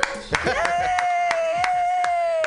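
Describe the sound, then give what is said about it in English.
An audience applauds a comedian at a comedy show with sharp, evenly spaced claps throughout, while a sustained tone holds steady over them. “Put your hands together, everybody, for Anne Chukaragiote.”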